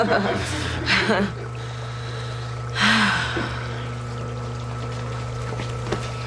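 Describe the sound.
Water sloshes and splashes in two brief watery swishes as feet soak in a potty, with a low steady hum underneath.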